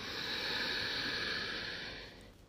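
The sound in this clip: A long, steady inhalation through the nose during a guided breathing and womb-focused meditation practice, a soft airy hiss that holds for about two seconds before fading out.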